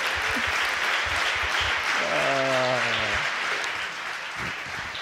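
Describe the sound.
Congregation clapping to welcome a preacher before a sermon: sustained, even applause with a brief voice rising above it partway through.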